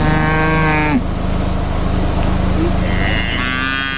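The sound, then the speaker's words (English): A cow moos in two long, loud, low calls with a rough, noisy stretch between them. No one speaks. “It's a cow. It is a cow.”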